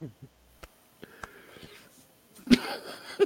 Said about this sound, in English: I just tried to take a drink of coffee and it went down the wrong pipe.